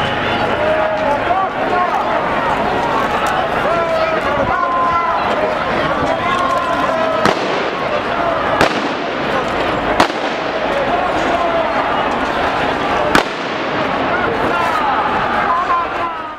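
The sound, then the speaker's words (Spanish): Crowd of protesters shouting and running during a police charge, with four sharp, sudden bangs from rubber bullet shots cutting through the constant din of voices and commotion. “esto es lo que sucedió, una carga indiscriminada, con disparos de pelotas de goma”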